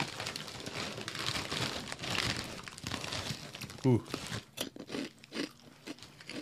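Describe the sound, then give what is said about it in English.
Crinkling and crunching as ranch-flavoured Doritos tortilla chips are eaten: irregular dry crackles and chewing bursts, denser in the first few seconds, then sparser crunches toward the end. “That's that Doritos ranch flavor.”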